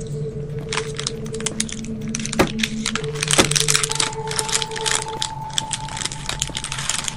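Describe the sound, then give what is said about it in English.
Fire crackles in a video game, a dense run of sharp, irregular snaps and pops alongside steady electronic tones that shift in pitch partway through. “there's fire that's like way too close to my right, and there's a wall in front of me”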